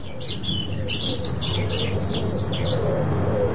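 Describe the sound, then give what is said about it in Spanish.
Birds chirp in daytime, a dense run of many quick, high tweets that overlap throughout, held above a steady low rumble. “¿Es de día o de noche? Hay pájaros. Entonces, es de día.”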